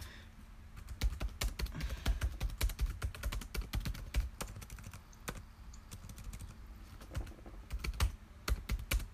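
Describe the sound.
Typing on a computer keyboard: many rapid, irregular keystroke clicks tapping out a steady stream, fairly faint, with no voices over them.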